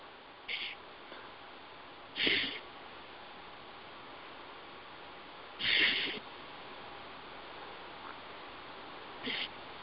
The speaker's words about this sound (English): And 3 nice deep breaths.